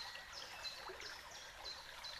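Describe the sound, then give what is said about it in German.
Flowing, splashing stream water makes a quiet, steady trickle and babble that continues evenly without pause. “Und du wirst noch mehr eins mit diesem Fließen und mit diesem Plätschern”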